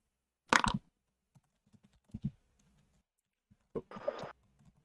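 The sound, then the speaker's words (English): Mouse clicks on buttons of a character sheet during an online tabletop role-playing dice roll. A few sharp, sparse clicks come at irregular intervals with quiet gaps between them, and one ends in a short scratchy rustle. “I'm just clicking the buttons on your character sheet”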